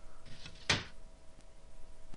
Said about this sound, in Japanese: いや、突然襖が開いた。